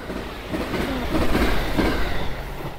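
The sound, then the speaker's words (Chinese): A passenger train heading to Wuhan runs along the rails with a steady, loud rumble and faint rhythmic clickety-clack from the wheels throughout. “坐上了前往武汉的列车”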